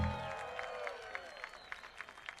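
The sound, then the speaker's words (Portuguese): Faint audience applause at a concert for the keyboard player, with scattered claps rising out of a fading tone and continuing softly for a couple of seconds. “Eu queria uma salva de palmas para Will Stort nos teclados, senhoras e senhores.”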